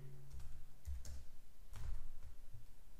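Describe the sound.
Faint typing on a computer keyboard, a few soft, irregular key clicks over a quiet low hum.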